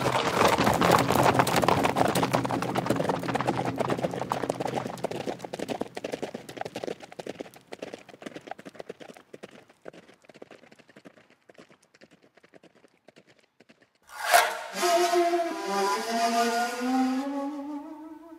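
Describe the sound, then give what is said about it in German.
Horses gallop in a dense, rapid clatter of hooves that gradually thins and fades, then gives way to a loud, sustained tonal sound near the end. “Wo sind Ihre Pferde? Wir müssen so schnell wie möglich zurück zum Eisvogel.”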